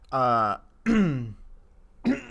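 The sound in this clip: Phlegmy throat clearing: a few short, rasping voiced bursts separated by brief pauses, loud and close, with no other sounds around them.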